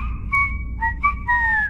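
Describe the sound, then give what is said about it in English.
Warning tone of Australia's national emergency alert messaging system: a short sequence of pure, whistle-like tones stepping between a few pitches, loud and alone, lasting under two seconds. “That's the sound of AusAlert, Australia's new emergency messaging system.”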